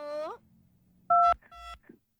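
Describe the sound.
Two short electronic telephone keypad tones sound, followed by a faint brief blip, as a caller from Samarinda is connected to a call-in line. A brief voice is heard just before the tones.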